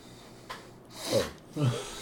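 Heavy breathing close into a microphone: two rough, breathy exhalations in quick succession, the second following a brief pause, after a faint click.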